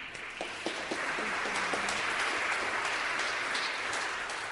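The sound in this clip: An audience at the House of Mercy applauds to welcome a singer onstage: dense, sustained clapping forms an even roar that holds steady throughout, with a few distinct claps early on.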